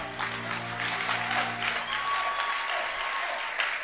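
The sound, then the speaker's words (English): Church audience clapping hands during a service: dense, continuous applause from many people, holding a fairly even loudness throughout. “Your hand clap is frozen by the weather. Are you frozen by the weather? Then let your hand clap be louder.”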